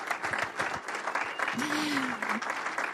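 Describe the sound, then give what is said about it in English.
An audience stands and applauds, a dense, steady clatter of many clapping hands that lasts throughout. Voices and a sustained vocal cheer rise above the clapping partway through. “And would you all stand and give them a great big hand?”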